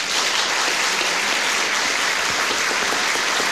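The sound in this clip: Steady applause from a theatre audience, many hands clapping in an even, continuous wash at moderate loudness.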